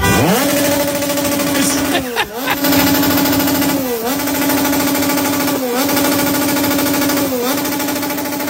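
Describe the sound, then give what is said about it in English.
A motorcycle engine being revved outside a hotel: a loud, sustained buzzing drone that briefly drops and climbs back four times, like throttle blips, and otherwise holds a steady pitch. “That was a motorcycle. They were revving a motorcycle.”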